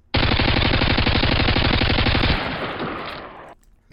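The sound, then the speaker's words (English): Rapid automatic gunfire as weapons are fired at a captain: one dense, loud continuous burst of shots lasting about two seconds, then a fading echoing tail, with no voices. “the fembot drew her weapons on the captain and fired”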